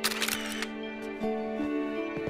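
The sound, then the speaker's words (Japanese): Camera shutter clicks as photos are taken: a quick cluster of sharp mechanical snaps at the start, then a few single clicks spaced apart, all over a soft sustained musical tone. “カメラっていいよね。撮っておくと忘れないし。”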